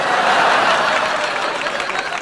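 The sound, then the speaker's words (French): An audience bursts into laughter and applause after a joking line in a speech: a dense, loud mix of laughing and clapping that stays strong, then eases slightly near the end. “Cette dernière phrase déclenche un tonnerre de rires et d'applaudissements.”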